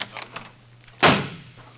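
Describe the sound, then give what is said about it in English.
A door slams as someone leaves a studio: one loud, sharp bang that rings out briefly after a quiet stretch of faint background sounds. “That door slam wasn't Robert. It was Tony Curtis leaving the studio.”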